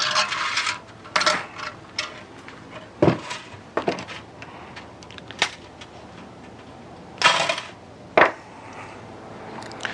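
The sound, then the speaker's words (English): Sharp snapping clicks of a tool cutting a piece off a plastic electric fence insulator: many short, crisp cracks at irregular intervals over faint background noise, without talk. “These types of insulators, I'm just going to go ahead and cut a piece off here.”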